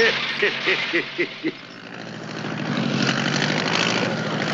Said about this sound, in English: It's coming in for a landing.